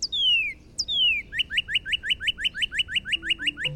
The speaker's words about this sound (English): Becca hears a bird that sounds like a siren going off, she knows to look for her mom's favorite bird, the Northern Cardinal.